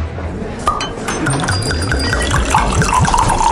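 Wine poured into glasses at a wine bar, with a rhythmic run of gurgling glugs and a few bright glass clinks above the liquid.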